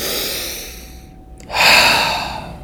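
A nervous man takes a deep breath, a long, airy rush of air that dips briefly and then swells louder in a fuller second breath before fading.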